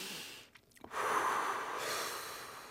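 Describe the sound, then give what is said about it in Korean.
A deep breath drawn during a chest-opening posture stretch with hands clasped behind the back: after a short pause, a long, steady, airy rush of breath, fairly quiet and heard alone. “숨 한번 깊게 들이마시고”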